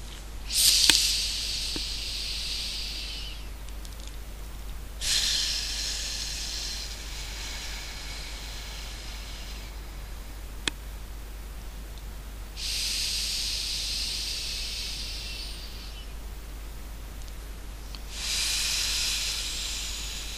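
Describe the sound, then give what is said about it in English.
Slow, deep breathing during a guided relaxation exercise: about four long, airy breaths hiss softly, spaced evenly with quiet pauses between them, over a steady low hum. “Close your eyes now and take several deep breaths with me.”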